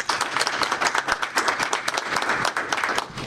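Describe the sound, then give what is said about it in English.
Audience applause welcoming a judge to the podium, steady dense clapping from many hands throughout, loud and even with no voices on top. “So please join me in giving Judge McNally a warm welcome.”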